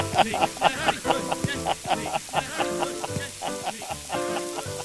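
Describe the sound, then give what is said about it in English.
A short musical radio sting for a fry-up segment, with percussive hits and tonal chords over a crackling, sizzle-like frying texture, played loud and busy throughout. “Anyone fancy a fry up? You know what? We haven't had that sting in a while. Let's just play it in for fun.”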